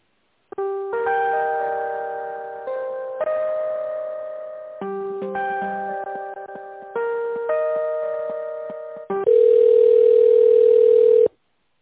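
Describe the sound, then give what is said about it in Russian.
A melodic electronic ringback tune plays while a phone call is connected, several short tonal phrases repeating in steady steps before a louder, unbroken tone holds for the last couple of seconds, with no talking. “Давайте я вас попробую соединить сейчас с ним.”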